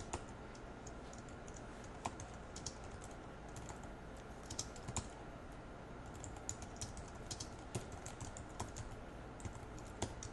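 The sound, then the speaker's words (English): Rapid typing on a computer keyboard as a note is written: many light, irregular key clicks in a steady patter with no voices. “And I'm just going to type out this note.”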